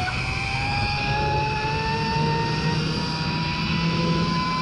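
A steady, high, droning whine from the two-line zip wire at Val Thorens during a ride, with thin tonal lines slowly rising in pitch over a constant rushing noise.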